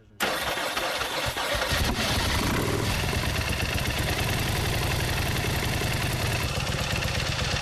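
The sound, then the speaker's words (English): A freshly wired, newly finished motorcycle engine fires up abruptly after a brief quiet moment, then settles into a loud, steady, throbbing idle that runs unbroken to the end. “The giveaway bike is finally done. I got all the wiring done. Everything's done. We're going to take it off the lift and start the bike.”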